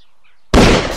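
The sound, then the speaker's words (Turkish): Single gunshot on a snowy morning in a village of single-storey houses, a sharp, loud blast breaking sudden silence, followed by a brief rumbling tail that slowly decays. “Neyi vurdu hiçbir şey görmedik. Sadece silah sesi.”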